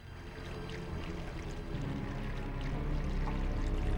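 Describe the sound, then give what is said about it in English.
Fuel pouring from a can through a funnel into a bike's fuel tank, a steady, continuous liquid rush and gurgle that holds at an even level from start to finish with no voices. “The fuel continues to flow.”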